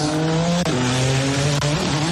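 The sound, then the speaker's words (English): IndyCar race cars roar through the streets at the Freedom 250 Grand Prix in Washington, D.C., a loud, steady engine drone broken by two sharp downward pitch shifts like gear changes. “Freedom 250 Grand Prix taking place in Washington, D.C. this afternoon, a 250-mile IndyCar race through the nation's capital.”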